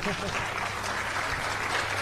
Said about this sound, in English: Go ahead and clap. This is radio. Support, please. Clap, please.